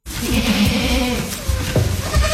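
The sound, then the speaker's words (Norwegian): Goats and sheep bleat in a farm barn that also holds cows. Loud, overlapping wavering cries come one after another over continuous barn noise. “I fjøset til Nina Gjelsvik det både sauer, geiter og kyr som krever stell og merksemd.”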